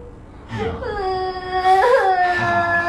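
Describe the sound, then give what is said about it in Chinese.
A woman cries in a drawn-out, whiny wail. Her voice is loud and strained and breaks into a few sobbing bursts as the crying grows stronger toward the end. “啊，亲爱的，别哭，别哭，别哭啊！”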